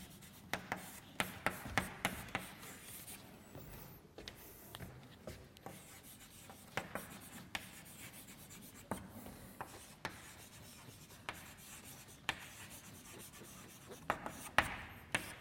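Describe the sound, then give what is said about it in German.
Chalk writing on a blackboard during a probability lecture: quiet, irregular scratching strokes and many small taps as the chalk meets the board, continuing throughout. “So, das habe ich nur geschrieben, damit die Tafel voll wird.”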